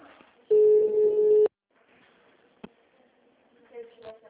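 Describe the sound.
A phone ringback tone sounds on an outgoing call: one steady, mid-pitched tone of about a second, followed by a low murmur of line noise and a single sharp click.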